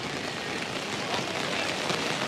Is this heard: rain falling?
yes